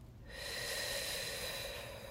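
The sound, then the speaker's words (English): A deep inhale during a guided meditation: a soft, steady rush of breath that swells in after a brief pause and holds level for about two seconds, with no talk over it. “Fourth breath in.”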